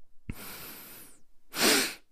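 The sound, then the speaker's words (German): A person breathes in deeply through the nose. A soft click leads into a long, hissing intake, then a pause, then a second, louder and stronger sniffing intake. “Also das Einatmen hört sich quasi so an, du atmest durch die Nase ein.”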